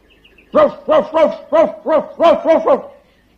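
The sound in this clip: A person imitates a dog barking with eight short, voiced, mid-pitched 'ruff' yelps in a quick, fairly even rhythm.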